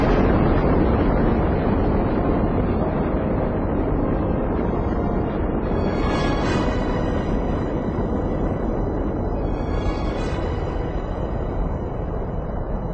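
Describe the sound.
Rocket launch roar, a loud, steady, dense rumble that holds with little change throughout, with faint higher hissing bands in places.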